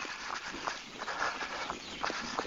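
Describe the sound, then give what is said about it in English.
Running footsteps of a runner on a town street, a steady rhythm of many quick, soft thuds with light scuffing, fairly faint throughout. “Right now I'm running on Wilmington Street,”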